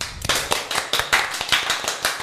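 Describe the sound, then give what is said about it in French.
Audience applause follows a small showcase of artists at a radio station. Sharp handclaps come in an uneven, fairly brisk run of many claps at a moderate level, with no voices over them. “Vous pouvez vous applaudir.”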